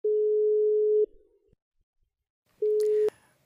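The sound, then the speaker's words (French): Telephone line tones: a steady, low dial tone holds for about a second and cuts off. After a pause of near silence, a shorter tone sounds and ends with a sharp click. “Bon, allez, je compose le numéro.”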